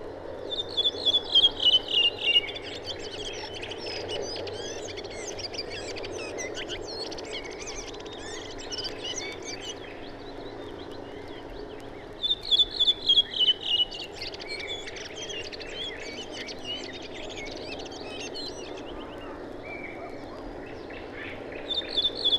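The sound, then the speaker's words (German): Song of a redwing, a late migrant in northern Poland: two separate phrases about ten seconds apart, each a run of high descending whistled notes followed by a scratchy twittering tail, set against a faint continuous background of other chirping. “Rotdrosseln brüten nur sehr selten in Deutschland. Die folgende Aufnahme erhielten wir von einem verspäteten Durchzügler in Nordpolen.”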